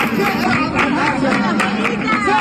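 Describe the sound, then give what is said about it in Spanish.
Crowd babble outside the Peña La Bulería flamenco club in Jerez at night: many voices talk over one another in a steady, lively hubbub. “La Bulería, este es el sonido de anoche a las puertas de la Peña La Bulería.”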